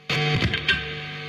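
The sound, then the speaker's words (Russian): Amplified guitar speakers hum to life as guitars are plugged in: a brief, loud, distorted burst of buzzing tone, then a steady harmonic hum that lingers and slowly fades. “Ребята вытащили из подсобки ударную установку, распаковали и подключили гитары. Колонки загудели.”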